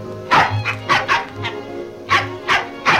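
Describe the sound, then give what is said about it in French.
A small dog barks in a series of sharp, high yaps, several close together, then a pause and a few more. The barks are loud and clear with no talking. “Le petit chien Toto”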